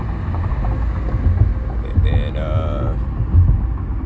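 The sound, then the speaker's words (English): A car driving on the road: a loud, steady low rumble mixed with buffeting wind noise that runs unbroken through the whole clip. “So yeah, driving to her place now.”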